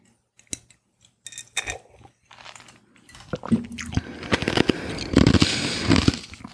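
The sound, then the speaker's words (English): Ice from a drink crunched between the teeth: irregular crisp cracks and grinding crunches, sparse at first, then denser and louder chewing toward the end. “Sorry, I'm crunchy. She's crunchy. I'm eating the ice in my drink.”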